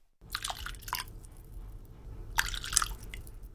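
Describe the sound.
Broth for Japanese zoni soup is poured into bowls, making two faint bursts of liquid splashing and dripping separated by a quiet pause.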